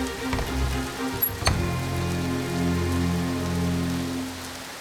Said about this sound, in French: La pluie tombe longtemps, très longtemps.